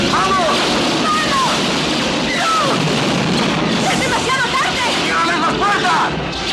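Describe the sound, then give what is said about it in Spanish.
Stormtroopers firing blasters in Star Wars: a rapid volley of sharp, whistling laser zaps with swooping pitch, packed over a loud, dense wash of battle noise. “Al oír el grito de Luke, los soldados se vuelven y disparan.”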